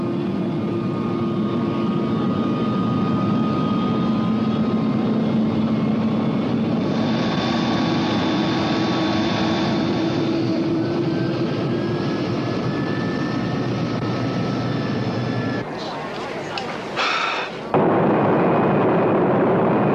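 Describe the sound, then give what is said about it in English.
Loud, steady drone of an airliner's engines as it takes off from a runway at Nassau. The roar holds throughout, dipping and breaking briefly near the end. “No one on board knew it, but flight 608 was about to take off to disaster.”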